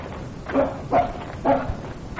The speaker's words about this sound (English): I'm more interested in what he's barking at in those bushes.